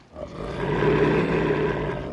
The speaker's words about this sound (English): The wolf bares his teeth at the young men and they jump back.